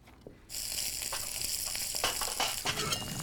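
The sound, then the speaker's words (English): Asparagus sizzles in a hot frying pan. After a half-second pause, a sudden steady frying hiss takes over, crackling, with a few brief sharper pops and stirring sounds. “The asparagus sizzles in a pan and sauce is cooking.”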